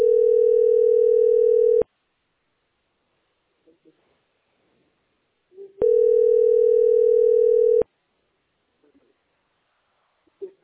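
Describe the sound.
Telephone tone on an overloaded phone line: two long, steady, mid-pitched buzzing tones of about two seconds each, separated by a pause with a few faint brief noises.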